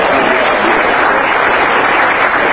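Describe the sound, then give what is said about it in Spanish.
Congregation members at a church service applaud a brother about to teach a Bible lesson, producing a dense, continuous burst of clapping that holds loud and even throughout. “Un buen aplauso para hermano Fernando.”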